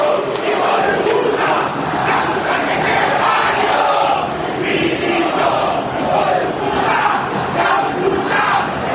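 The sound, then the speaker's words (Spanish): Angry home football fans in a stadium roar and chant as one loud, dense, unbroken crowd noise with no pauses, voicing frustration at their own team. “la desesperanza, la bronca, la impotencia de los hinchas de Racing. Escuchen el público de Racing.”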